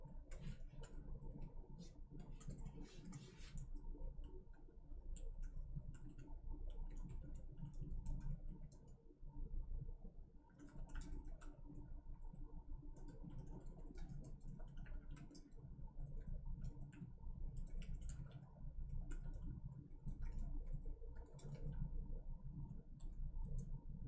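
Rapid keyboard typing while an email is written: many dense, irregular clicks and taps run steadily for the whole stretch at a fairly even level, with no voices.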